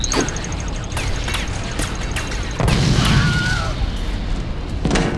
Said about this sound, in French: Ok, regarde bien surtout. Une grenade, vraiment. Une grenade tenue par un mec qui a du talent.